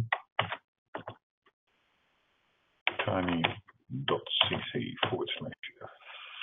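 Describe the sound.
Keys clacking as a web address is typed on a computer keyboard: a few short, sharp clicks in an uneven rhythm, then a voice talking.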